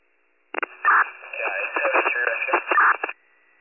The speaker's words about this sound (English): Radio static.